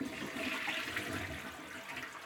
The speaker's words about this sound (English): Ctesibius's device, which is a constant presence in most of our homes: the flush toilet.